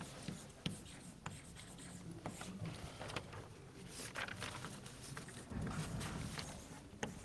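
Handwriting during a lecture on data structures, heard as continuous scratchy strokes with several sharp taps, steady and fairly quiet, with no talking.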